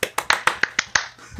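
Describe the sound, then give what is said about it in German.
Hand claps from a theme song: a quick, evenly spaced run of seven sharp, bright claps, each with a short decay, followed by a softer, duller tap at the end. “Sind das eigentlich 4 oder 5 Klatscher?”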